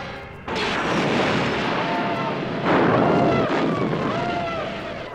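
Laser weapons firing in a space battle as stormtroopers storm a rebel cruiser: a loud, dense roar of blasts with two sharp surges of noise and faint whistling tones threaded through, continuous with no voices.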